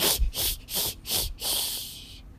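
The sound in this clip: A voice imitates a cat hissing, making a series of sharp, breathy, high hisses separated by short pauses, with the last hiss drawn out longest before stopping.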